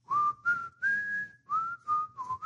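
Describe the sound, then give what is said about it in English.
Whistled melody from a person walking briskly through woods, a bright clear tone in about six short phrases with brief gaps, the pitch stepping up through the middle and dropping back near the end. “All right, I'm just whistling.”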